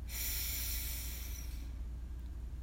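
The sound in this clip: A group inhales deeply together during a guided relaxation exercise: a single long, steady breathy hiss lasting about one and a half seconds, then fading to quiet.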